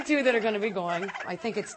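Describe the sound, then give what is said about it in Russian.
Turkeys gobbling at a farm in New York: a loud, rapid, rattling warble that wavers up and down in pitch and carries on without a break through the short stretch. “Некоторые индейки попросили политического убежища на ферме Воткинс-Глен, штат Нью-Йорк.”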